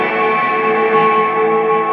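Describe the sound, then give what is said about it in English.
Sustained tones pass through an effects unit with its effect level turned up high, producing a heavy reverb. The result is a dense, steady, ringing wash of overlapping notes that stays loud throughout without a break. “So much reverb on that. I like it.”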